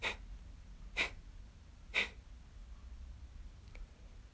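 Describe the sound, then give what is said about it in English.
Belly breathing for a breathing exercise, with short, forceful exhales through a slight constriction. Three quick, quiet puffs come about a second apart, followed by a fainter fourth, while the inhales stay nearly silent. “The belly will move with every exhale, but just let your shoulders, your chest stay still. The inhale will just happen naturally, and it sounds like this.”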